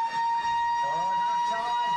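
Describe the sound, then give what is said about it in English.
Half-time siren at an Australian rules football match at Fremantle Oval: a loud, steady single-pitched wail held throughout, with crowd noise and voices underneath. “Siren.”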